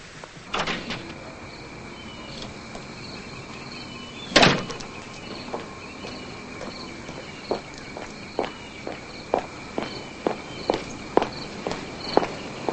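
A woman walks outside: a loud thud comes first, then a long run of crisp, evenly spaced footsteps that stays steady in pace and volume to the end.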